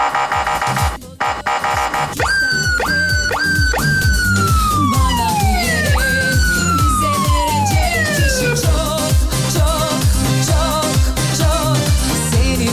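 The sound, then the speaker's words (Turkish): A police-style siren sound effect, played on request, wails loudly in repeated sweeps, each sliding downward in pitch, with a steady pulsing rumble underneath throughout and no voices. “Siren alabilir miyiz demiş. Alabilirsiniz tabii.”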